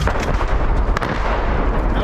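Artillery fire during fighting as civilians flee: a dense, continuous, loud rumble of blasts and crackling, with one sharp crack standing out near the middle.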